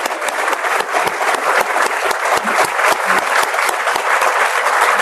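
Audience applause for Chicago at a public event: a dense, loud, continuous patter of many hands clapping together, holding steady throughout.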